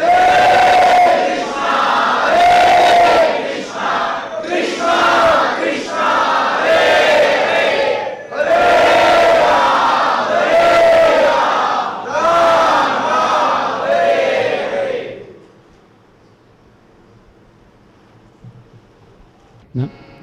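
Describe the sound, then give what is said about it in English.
A crowd loudly chanting Krishna's holy names: massed voices in strong, rhythmic, repeated phrases that carry steadily for about fifteen seconds, then break off and leave only a faint background. “to accept the path of perfection by raising their arms and loudly calling out the sweet sound of Krishna's holy names.”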